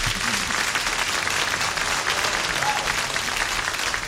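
Audience applause welcoming a performer onto the stage, a dense, steady wash of many hands clapping that holds at an even loudness for the whole stretch, with no voices standing out.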